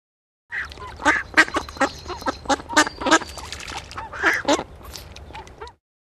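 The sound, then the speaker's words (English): A duck quacking: many rapid, nasal, raspy quacks in an irregular burst, fairly loud and alone, with a few louder calls standing out among the chatter. “Duck.”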